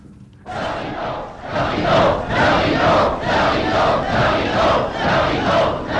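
A theatre audience shouts in protest. After a brief quiet moment, a loud crowd erupts into rhythmic, repeated chanted bursts that pulse steadily for several seconds.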